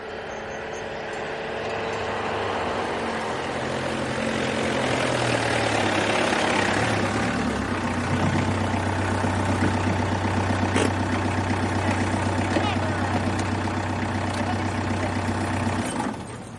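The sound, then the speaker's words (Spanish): A car drives along a road and stops in the garden of a house. A steady low engine drone holds throughout and cuts off abruptly at the very end. “A la mañana siguiente, un coche circula por la carretera. Llega a la casa de Santi y se detiene en el jardín.”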